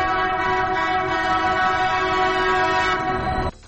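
A loud, sustained horn sounds from an Addis Ababa light rail train, holding a steady, chord-like tone for about three and a half seconds before stopping abruptly.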